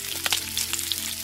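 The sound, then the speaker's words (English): Bacon sizzles and fries in a pan in the morning, a steady crackling hiss dotted with brief sharp pops. “Or maybe it's the sound of bacon sizzling in the morning.”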